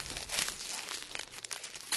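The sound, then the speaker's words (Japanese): Puffed corn snack sticks are eaten fast in a speed-eating contest, with a faint, steady run of crisp crunching and crackling rustles. “うまい棒早食い対決、よーいスタート”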